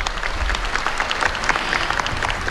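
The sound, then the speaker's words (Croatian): A concert audience applauds a women's klapa choir from Zadar at a final concert, a steady, dense wash of clapping with a low rumble beneath, even in level throughout. “Pozdravimo i prvu žensku klapu večerašnjeg finalnog koncerta što nam je stigla iz Zadra.”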